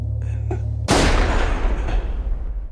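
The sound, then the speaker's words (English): A single gunshot bursts out sharply and loudly after a low steady hum, then trails off in a long, rumbling decay that fills the rest of the stretch. “He recalls the moment of the shot.”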